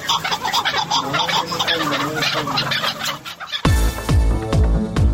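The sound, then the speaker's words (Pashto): Migratory birds calling in spring in Ghazni: dense, overlapping chirps and warbling calls give way abruptly to louder, lower, repeated gobbling cries that fall in pitch. “هیلۍ، چاړې، سیرې، ګلسران، مړزان، خړېړکې، جلان او داسې نور هغه مرغان دي چې په پسرلی کې غزنی ته سفر کوي”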